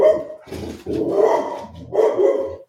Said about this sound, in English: That's just the dog introducing herself to the pod. She's just, yeah, she wants to say hi.